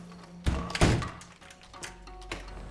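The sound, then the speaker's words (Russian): A door to the street is shut from inside a kitchen, giving a few dull thunks with the heaviest thud early on, followed by fainter knocks and low rumble. “Он делает несколько шагов по кухне и закрывает дверь на улицу.”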